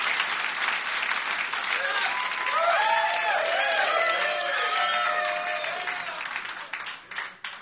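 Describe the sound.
An audience at the Warhol applauds after a live acoustic set, with dense, steady clapping mixed with cheers and whistles, thinning out and fading toward the end.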